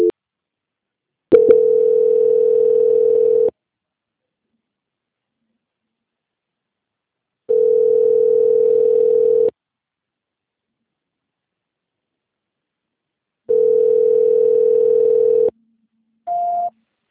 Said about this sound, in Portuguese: peço que aguarde em linha, que eu vou transferir o seu contato para o controle de qualidade que dará continuidade à sua ação